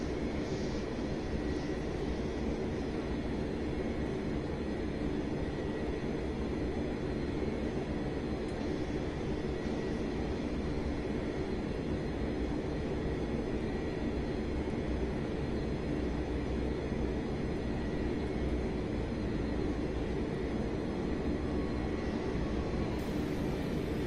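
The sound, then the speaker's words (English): An airplane taxis off the runway, its engines giving a steady, unbroken droning rumble with a faint high whine above. “Alright, well, we're exiting the runway. We're also, And that took it long enough to exit the damn runway.”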